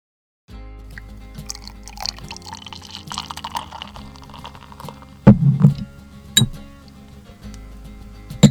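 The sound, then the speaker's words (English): Fresh hop beer being poured, a faint liquid trickle with drips over a low steady hum, broken by a few sharp glassy clinks, with one bright clink at the very end. “That's the sound of fresh hop beer, baby. Fresh hops.”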